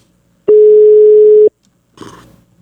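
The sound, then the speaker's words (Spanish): A steady telephone line tone sounds while a call is being dialed. It holds one even pitch for about a second, then stops, and a short rough burst of noise follows. “En este momento le estoy marcando al Capi Ramón Valverde.”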